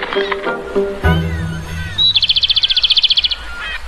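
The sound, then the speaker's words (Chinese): A cartoon robin chirps a rapid, high, bright trill of many quick notes lasting about a second, after brief voices and soft rustling. “嗰只叫做知更鸟。”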